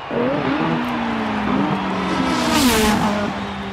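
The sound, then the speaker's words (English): A Formula One race car engine roars past, a loud, continuous high-pitched whine whose pitch shifts up and down, swelling briefly near the end with no voices. “In every Formula One race, there's a pit stop with a range of expert mechanics ready by the track to quickly detect any issues with the race car, fix them fast, and get them back into the race.”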